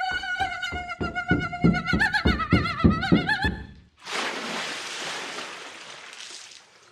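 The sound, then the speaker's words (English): Quick rhythmic footsteps as a bound, blindfolded person runs across a TV set and up a ramp, with a sustained tonal sound over the steps. A loud, broad splash follows as they drop into a 10-foot-deep dunk tank, and it then fades away. “that was the sound of Sarah Milliken running bound and blindfolded across a TV set, up a ramp, straight into a 10-foot deep dunk tank.”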